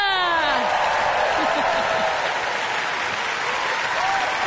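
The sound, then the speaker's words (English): Audience applause at an orchestral musical theatre concert: dense, steady clapping held at an even loud level throughout, with a few whoops near the start. “Now, let's give a big round of applause for my boys.”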